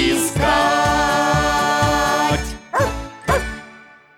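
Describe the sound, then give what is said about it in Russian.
A pet dog gives two short barks as a greeting, sounding near the end after a stretch of rhythmic, tonal music. “Алтай, поздоровайся. Алтай, мой верный пес.”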